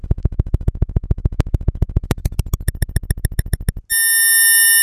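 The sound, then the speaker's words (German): Electronic tone from a function generator: a rapid train of short, evenly spaced, buzzy pulses, then an abrupt switch to a loud, steady, harmonic-rich sustained tone that holds to the end. “Jetzt kommt es auch der Ausgang direkt aus dem Funktionsgenerator.”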